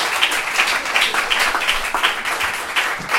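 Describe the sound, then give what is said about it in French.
Audience applauding at the close of a science café on infectious diseases, with dense, steady clapping that stays loud throughout, no voices standing out. “sous un tonnerre d'applaudissements”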